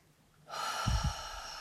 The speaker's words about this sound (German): atme hier tief ein und tief aus.